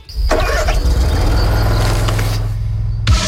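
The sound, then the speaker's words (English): A Bobcat zero-turn mower engine starts with a sudden loud onset, then runs with a steady, heavy rumble until a brief change near the end. “When you're on a Bobcat zero-turn mower, it's your time. Just you, your machine, and the job at hand.”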